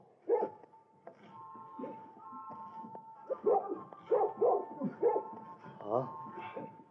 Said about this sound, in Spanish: Oh, caramba. Qué perro.